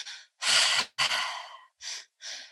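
Paced breathing with exhales pushed out through the mouth: five breath sounds, two long, strong airy ones early on, then shorter, softer breaths after brief gaps.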